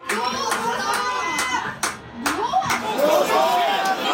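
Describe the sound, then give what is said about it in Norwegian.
Norwegian football fans watching their national team shout for the referee to end the match: a loud, continuous jumble of excited voices with scattered claps mixed in. “De desperate ropene for at dommeren skal avslutte kampen like, men de kommer fra helt forskjellige steder. Noen ser kampen med borettslaget sitt I Trondheim, mens de andre ser den på en bar I Oslo.”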